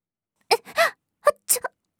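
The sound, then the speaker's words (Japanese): Crying from someone who has been let down by an older sister: several short, wailing sobs in quick bursts with silence between them, each voiced cry bending in pitch. “泣くことはないじゃない。”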